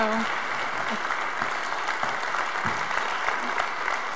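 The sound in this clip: Warm applause at a church service welcoming a guest speaker, a dense, steady clapping from the audience that holds at an even level from start to finish.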